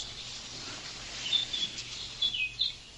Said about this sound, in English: I'm going to turn up the mic. I want to hear the birds.